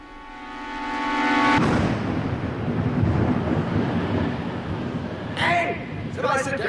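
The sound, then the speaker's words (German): Staged thunder sound effect crashing after rapid lightning: a steady held tone cuts off into a loud, sustained, rumbling roar, and voices come in near the end. “Blitze in schneller Folge. Und dann halt das Krachen.”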